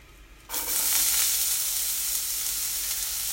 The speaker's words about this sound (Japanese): はいじゃあフライパンに今ね玉ねぎを投入しました